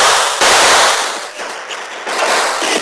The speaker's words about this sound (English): As bullets whined through the open window, Dude jumped